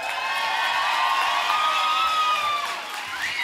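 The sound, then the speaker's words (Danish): An audience cheers and whoops for an orchestra: a steady crowd roar with sustained high, voice-like shouts that hold their pitch, then a new whoop rising near the end, with no talk over it. “Er der overhovedet nogen, der har givet det her fremragende orkester en hånd med på vejen?”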